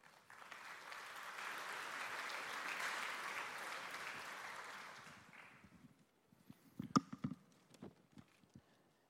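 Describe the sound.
A church audience applauds to welcome two people coming up to share a prayer: a steady, broad clatter of clapping that swells, then fades, followed by a few scattered knocks and thumps.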